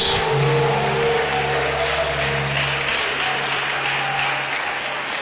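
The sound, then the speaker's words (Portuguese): Sustained applause from a church audience, a dense, continuous patter of clapping over low, steady tones, fairly loud and even throughout. “você vai oferecer a Deus a melhor salva de palmas”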